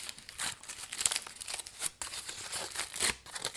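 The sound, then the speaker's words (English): Crinkling of a tea cake's wrapper as it is opened, with many quiet, irregular crackles and rustles and a few sharper tearing bursts, heard alone and faint. “this is the sound of a tea cake being opened.”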